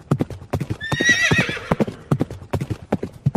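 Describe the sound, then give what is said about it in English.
A horse galloping ahead toward a river, with rapid, steady, drumming hoofbeats throughout and a high whinny rising over the hooves midway through. “His horse raced ahead,”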